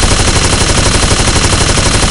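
Machine gun firing tracer rounds across the sky at a large unarmed civilian plane, heard as a loud, dense, unbroken roar of rapid fire that holds steady with no pauses.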